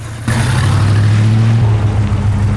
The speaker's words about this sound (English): Some security lights are activated as the car pulls up outside an old warehouse. A large metal door opens and the car disappears inside.